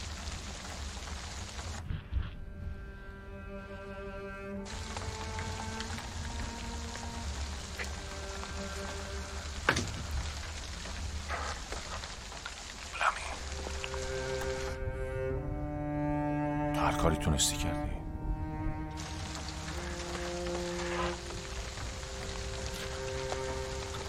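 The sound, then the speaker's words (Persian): Steady rain hisses throughout beneath sustained musical tones, with a few sharper sounds breaking through now and then. “به محض اینکه بارون تمام بشه از شاله میام بیرون و راه میافتم سمت اونجا.”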